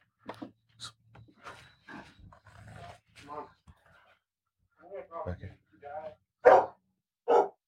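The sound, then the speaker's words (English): A caged bulldog barks in many sharp, uneven bursts with short gaps, the last few barks louder. “So I opted to just stand there and listen to his caged bulldog bark at me.”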